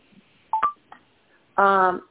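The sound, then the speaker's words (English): A bleep on a phone line during a call: a couple of short electronic chirps, then a longer, buzzy, steady tone lasting about half a second. Faint line hiss fills the gaps between them. “I heard a little bleep on the phone. I didn't want to lose you.”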